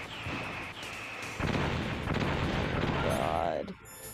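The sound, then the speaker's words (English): Missile explosions in the Metal Gear Solid Integral video game: deep booming blasts and rumbling impacts mixed with synthetic electronic tones, the blasts growing heavier partway through before thinning out. “Oh, I think I have to, like, run in a curve to get away from the missiles.”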